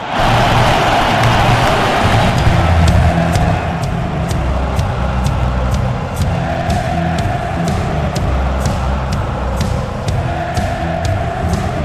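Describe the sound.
A stadium crowd roars at a football match in Moscow. The roar of massed voices is loud, dense and continuous, and it holds steady throughout.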